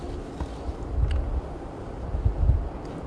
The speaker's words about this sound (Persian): غیر از همین سر و صدای باد چیزی اینجا نیست